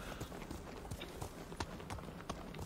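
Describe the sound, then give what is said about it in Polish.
Horse hooves clip-clop faintly as a rider moves through mountains in a video game, forming a series of soft, irregular knocks over a low, steady background. “Słuchajcie, jestem gdzieś w górach znowu. Czy ja się stąd w ogóle wydostanę na tym koniu, czy nie?”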